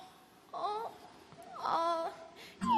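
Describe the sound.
A hedgehog character crying, a voice imitating high, wavering sobs and whimpers in a few separate bursts with short pauses between them.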